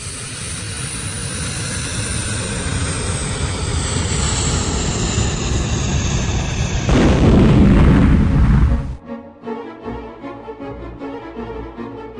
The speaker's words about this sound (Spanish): El avión de la empresa Pluma que viajaba a Brasil se había caído en el medio de la selva amazónica.